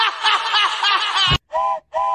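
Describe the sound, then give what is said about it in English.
Steam train whistle sound effect: a bright, wavering tone of about a second, followed by two short, separate hoots with silence between them. “Choo choo”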